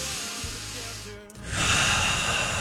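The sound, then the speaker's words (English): One deep breath taken by a nervous host just before a pop culture trivia game. A quieter hiss swells into a loud, rushing breath of air that holds steady to the end, with no talking. “I'm going to take a deep breath.”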